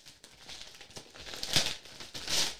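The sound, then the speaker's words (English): A parcel sealed with packing tape is opened, with soft crinkling and rustling of tape and wrapping that builds to two sharper, louder tearing bursts toward the end. “They got that good packing tape, though.”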